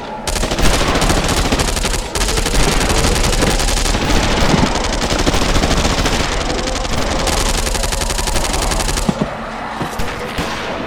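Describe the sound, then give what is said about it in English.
Heavy gunfire, machine guns and rifles together, opens up on an attacking wave coming out of the surf: a loud, unbroken, dense roar of rapid shots lasting the whole stretch, dipping slightly near the end. “Okay, boys and girls, here we go. Open fire!”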